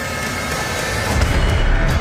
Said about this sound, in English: We just heard a trailer.